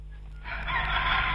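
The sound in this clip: A chicken crows in one loud, drawn-out call that begins partway through, over a steady low hum.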